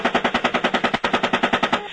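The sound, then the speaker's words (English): Machine gun fire in Iraq war footage: a rapid, evenly spaced string of many loud, harsh shots rattling without pause for about two seconds before stopping. “They are looking for an excuse to kill. The van was fired upon as well.”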